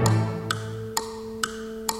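Orchestral music imitating an alarm clock ticking: four crisp, evenly spaced ticks over sustained held tones, with a low note fading out early, in a light jazz-inspired piece for a pops orchestra.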